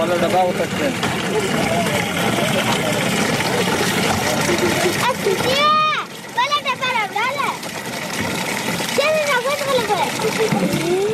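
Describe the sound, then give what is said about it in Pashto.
Water splashes and pours as children fill cans from a water tank built by an aid organisation in Kandahar. Children's voices rise and fall over the steady splashing. “دلته ماشمان د اوبو له هغې ټانکۍ څخه ډبې ډکوي چې په سیمه کې د یوې مرستندوی موسسې لخوا جوړه شوې ده.”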